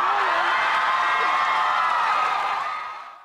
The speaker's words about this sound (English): these are the audience members at the Coliseum hoping that they see a Christian get